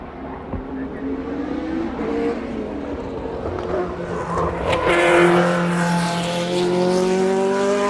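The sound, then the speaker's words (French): Several Formula 1 cars taking an S-bend, their overlapping engine whines climbing in pitch and growing louder as they pass, with sharp revving bursts midway. “Franchissement d'un virage en S à plusieurs.”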